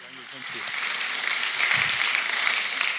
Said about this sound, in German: ich sag mal keinen fränkischen Applaus, sondern mal himmlischen Applaus. Lass uns ihn mal ganz herzlich willkommen heißen in unserer Mitte.